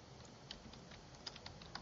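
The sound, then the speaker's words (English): Faint typing on a computer keyboard as a search is entered, a few soft, uneven clicks over a quiet background with no talk. “I typed in Allentown Plumber.”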